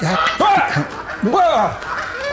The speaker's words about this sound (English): These geese are fucking pricks. Oh, that's right. There's those geese by the bar now. They're dicks to anyone that walks up to the bar.